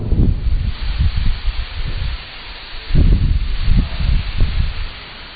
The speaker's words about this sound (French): Il y a une grosse tempête là dehors.